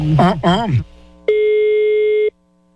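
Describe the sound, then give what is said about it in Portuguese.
A telephone ringing tone sounds during a prank call: after a man's brief speech in Portuguese, a single steady, mid-pitched electronic tone holds for about one second, then stops into silence. “Não, tá, tá chamando.”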